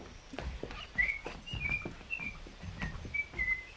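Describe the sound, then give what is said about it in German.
Whistling by a girl strolling away along an overgrown path: a few short, high, clear whistled notes, spaced out, with soft low rustles beneath. “Pfeifend schlenderte sie davon.”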